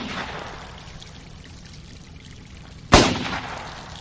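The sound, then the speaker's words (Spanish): A single gunshot fired into a truck's fuel tank: one sharp, loud crack near the end, with a brief noisy tail. Before it there is a quieter, steady hiss. “El gemelo de blanco dispara al depósito.”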